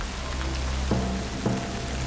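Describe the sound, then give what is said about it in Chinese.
Heavy rain pours down in a steady, dense hiss of drops that stays constant throughout, with no voices. “问题是这场雨下得太大了。 这么大的雨下个不停，”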